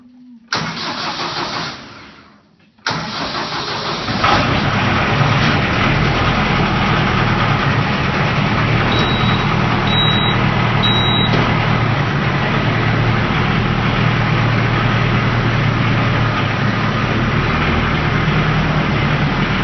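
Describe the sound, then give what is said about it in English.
A grandfather's tractor engine cranks and sputters briefly, dies out, then fires on a second try and settles into a loud, steady, low rumbling idle, heard alone. “This is the sound of my grandpa starting his tractor.”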